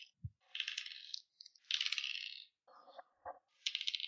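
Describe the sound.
Dice rolled for a tabletop game clatter in a few short bursts of bright rattling, quiet and alone, with a low knock near the start and brief gaps between the rolls.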